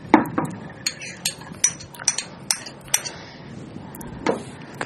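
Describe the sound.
Light metallic clinks and taps of a utensil against a cooking pot as turmeric is added, many quick, uneven ticks scattered over a low background hiss.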